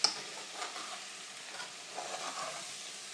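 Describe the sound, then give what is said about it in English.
Food simmering in a pan as it heats up: a soft, steady sizzling hiss with faint crackles and no talk. “There it is, it's simmering away. It's hotting up a little bit more.”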